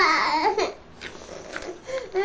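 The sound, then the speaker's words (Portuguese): Young girl crying in wavering, whimpering wails that rise and dip in pitch, loud at the start and end with a quieter, broken stretch in between. “Oh, filha, estás a chorar porquê?”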